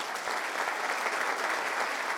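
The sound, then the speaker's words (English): Applause from a group congratulating a person at a stock-market quiz segment: dense, steady clapping that holds at an even, fairly loud level for about two seconds, with no voices standing out. “Round of applause for Michael.”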